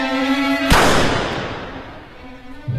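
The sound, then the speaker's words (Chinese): A gunshot fired at a man fleeing into a waiting car: one sharp, loud crack with a long fading tail, over a low sustained musical tone that returns afterward. “枪声响起的同时，车已经飞驰而出。”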